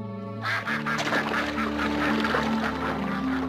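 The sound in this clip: A duck quacks in a rapid run of many harsh, nasal calls that continue steadily over a sustained tonal background.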